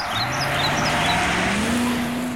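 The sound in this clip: A car engine hums steadily as the car drives home, a smooth, even drone whose tone rises to a slightly higher pitch about two-thirds of the way through. No one speaks.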